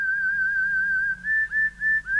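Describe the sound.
Whistling opens a pop single with a clear, bright tone held steady for about a second. Several shorter whistled notes with slight pitch bends follow, over a faint low accompaniment.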